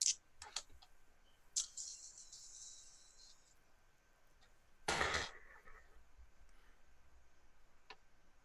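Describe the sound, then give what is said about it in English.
Many dice clatter as they are rolled: a few sharp clicks, then a dense, rattling burst midway, followed by sparse faint ticks. “And then a whole boatload of dice.”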